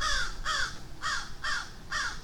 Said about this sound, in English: See, that stupid bird is warning all the matis that I'm walking through here.